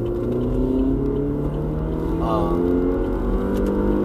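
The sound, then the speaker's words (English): A car accelerating: a steady, loud engine drone whose pitch creeps slowly upward, with a voice briefly audible over it. “You hear me accelerating yet?”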